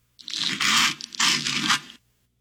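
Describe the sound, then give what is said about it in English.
Butter is spread on toast in two rough scraping strokes, a gritty, crunchy rasp heard alone, with a short break between the strokes. “No, it's butter being spread on toast.”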